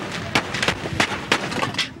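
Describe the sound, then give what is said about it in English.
Several gunshots fired at the US president outside a Washington hotel in 1981: sharp cracks come in quick succession over a dense, noisy background. “John Hinckley Jr. fires 6 shots at President Ronald Reagan.”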